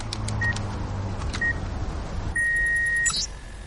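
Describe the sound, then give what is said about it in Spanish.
A code being keyed in on a mobile phone to stop an alarm: a few short electronic keypad beeps, then a longer steady tone, over low rumbling background noise. “Queda pensativa. Teclea la clave.”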